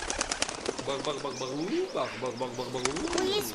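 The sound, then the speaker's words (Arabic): Pigeon-like cooing and chirps from a group of birds gathering food by a stream, with bursts of flapping wings. “مجموعة من الطيور عند الساقية. تحاول هذه المجموعة من الطيور أن تجمع بعض الطعام”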